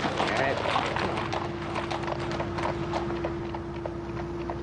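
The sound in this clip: Hooves clip-clop steadily as a horse is ridden down a dusty lane beside a graveyard: many quick, evenly paced hoofbeats over a constant low hum and a broad background hiss.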